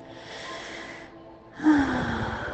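Deep breathing during a guided breathing exercise: a long, steady airy breath, a brief pause, then a louder, fuller inhale that swells sharply and holds.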